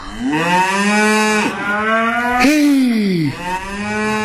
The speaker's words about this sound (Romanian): Claus cel Mic, care își mâna din urmă cireada